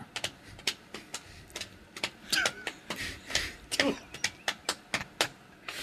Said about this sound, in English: That's a lot of drums before we get to the meat. Wait, is that it? Could you hear what song that was? What song was it? The William Tell Overture?